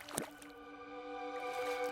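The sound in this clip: An oar paddling in murky canal water from a sampan boat: one brief, wet splash near the start, followed by a steady tonal drone.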